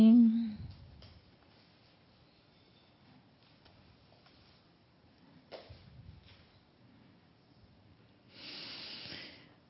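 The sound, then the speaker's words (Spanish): Slow, deep breaths during a guided breathing exercise: soft, airy hissing breaths with quiet gaps between them, and a longer, louder exhale near the end. “vamos a respirar profundamente, regresamos”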